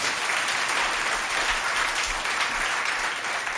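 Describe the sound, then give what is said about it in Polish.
Audience applause after a cellist is introduced at a live concert, a steady, dense wash of clapping from many hands that stays even and loud throughout, with no voices over it. “brawa dla Ani.”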